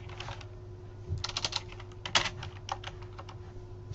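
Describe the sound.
Typing on a computer keyboard: quick, irregular bursts of light clicks and taps, moderately loud, over a low steady hum. No one speaks.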